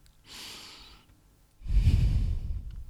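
A deep breath is taken: a slow, airy inhale, a short pause, then a longer and heavier exhale that is louder and lower.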